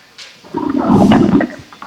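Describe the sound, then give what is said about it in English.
A caller swimming in Walden Pond makes water splash, a short rushing surge that swells for about a second and then fades. “She's swimming. Wow.”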